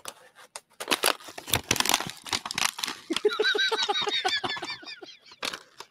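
Thick packaging is ripped open in repeated harsh tearing and crinkling bursts, followed by a run of squeaky, honk-like tones mixed with further crinkles.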